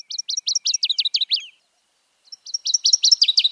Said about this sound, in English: This is the song of a northern water thrush. Despite its name, it's really not a thrush. It's a warbler.